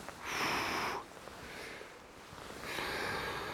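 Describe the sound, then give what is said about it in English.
Breathy blowing onto a smouldering ember in tinder: two strong, airy blows with a softer breath between them. “and then bring it back, blow again, not too close because you don't want to blow moisture in, about there, away, breathe in”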